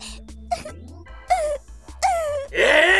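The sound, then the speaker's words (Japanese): Fake crying from a voice: a few short whimpering wails with wavering pitch, separated by pauses, building to a louder, sustained wail at the end. “嘘泣きはやめんか。”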